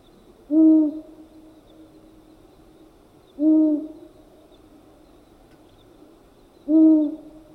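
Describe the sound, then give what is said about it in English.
A long-eared owl hoots three times, each call a low, hollow, breathy note like air blown across an empty bottle, evenly spaced about three seconds apart in otherwise quiet surroundings. “The long-eared owl has one of the most sober sounds among birds, like the sound you hear when blowing an empty bottle's top.”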